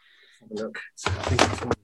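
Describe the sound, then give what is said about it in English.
A camera cupboard being opened and rummaged through: a few short knocks and squeaks, then a longer burst of rustling and clattering from the cupboard's contents. “Hang on, I'll see if I can dig it out somewhere in here. Sorry for the listeners, I've just gone to my cupboard. My camera cupboard.”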